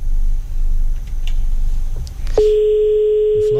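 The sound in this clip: A telephone line tone while a radio caller is connected: low rumbling noise, then a sharp click and a steady, even tone that holds to the end.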